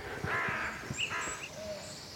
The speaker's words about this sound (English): Oh yeah, there's a wood warbler in here. Thought there might be.